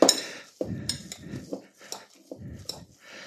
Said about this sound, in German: Die müssen wir jetzt relativ schnell einarbeiten, damit sie nicht an den heißen Kartoffeln sozusagen zu Rührei werden.